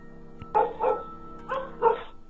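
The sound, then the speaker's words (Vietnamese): Dogs barking in a village: four sharp barks in two quick pairs, with a faint steady hum underneath. “Tiếng chó sủa inh ỏi trong xóm.”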